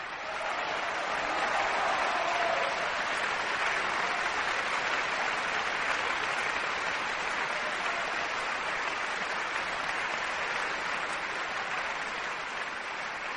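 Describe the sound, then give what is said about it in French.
An audience and the Orchestre de Paris applaud conductor Pierre Boulez after a Bartók orchestral work. Dense clapping blurs into a steady, fairly faint wash that holds level throughout. “Pierre Boulez acclamé par ses musiciens. Le grand homme remonte sur son podium, acclamé par le public et par les musiciens.”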